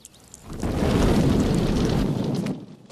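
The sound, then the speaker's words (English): Leaking petrol from a truck's tank catches fire from a discarded cigar butt: a low, rumbling roar of flames that swells quickly, holds steady for about two seconds, then eases off, with no voices. “The cigar butt ignites the petrol.”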